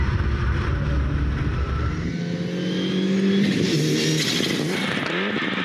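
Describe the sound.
Turbocharged rally car engine accelerating, a loud, continuous roar with strong harmonics that climb and thicken in the second half, holding steady volume throughout with no pauses.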